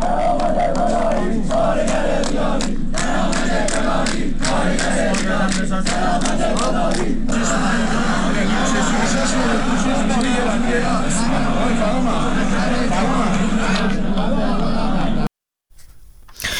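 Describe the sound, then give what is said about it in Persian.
Crowd at a strike rally at the Bahman car manufacturing group in Tehran, a loud, continuous mass of shouting and chanting voices that drops out briefly just before the end. “در تهران هم گروه خودروسازی بهمن مشهور رو داریم، امروز اونجا هم تجمع و اعتصاب بوده. باز هم صدایی داریم، اگر قابل پخش هست الان میتونیم با هم بشنویم.”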